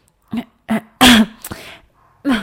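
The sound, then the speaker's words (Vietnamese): A man clears his throat in a few short, rasping vocal bursts separated by brief gaps. The loudest burst comes in the middle, and a final short burst follows after a pause. “Trương Phúc Thái ho khan một tiếng.”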